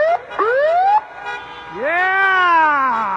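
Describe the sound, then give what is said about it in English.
Fire truck siren wailing as a coastal Alaskan town celebrates a champion: loud, high rising wails, with two short upward sweeps followed by a longer sweep that climbs and holds its tone. “Wesley Verham rode atop a fire truck with sirens wailing through the picturesque coastal Alaskan community of Haynes”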